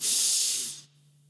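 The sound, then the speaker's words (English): A deep breath drawn in through the nose: a steady, airy hiss lasting under a second that stops abruptly, leaving near silence with a faint low hum. “let's take a deep breath to center ourselves in this moment. In through the nose,”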